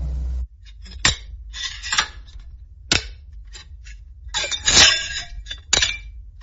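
A locked box pulled from a river being forced open: sharp metallic clicks, clinks and cracking scrapes at irregular intervals, with a denser, louder cluster of rattling near the end.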